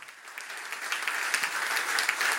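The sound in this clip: A Baptist church audience in Paris applauds Jesus, a dense crackle of clapping that swells steadily louder as it goes on.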